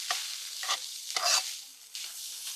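Shallots and chili stir-fry in a pan for a Thai dish, with bursts of crackling sizzle and scraping as the spatula moves, loud and repeated with no talk.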